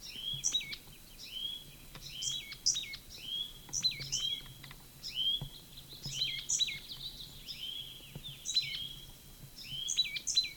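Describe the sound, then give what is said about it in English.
A single bird sings repeated quick phrases of high, bright chirps and short whistled notes, many in close succession, faint but continuous throughout. “Same bird.”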